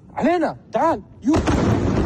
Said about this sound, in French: c'est le cas de cette vidéo de 9 secondes filmée de nuit par un civil. On y voit un missile tomber quelque part en plein centre-ville.